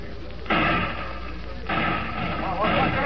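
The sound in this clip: Gunshots ring out in a town as a few loud, broad bursts spaced about a second apart over a steady background.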